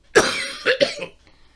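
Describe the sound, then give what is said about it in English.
A short fit of human coughing: one strong, harsh cough followed by a few quicker, weaker coughs, then quiet. “later when my voice is better and I'm not coughing as much. So sorry for the coughing”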